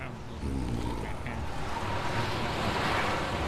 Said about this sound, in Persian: باسیم بچه رو از این بوران دور نگه داریم.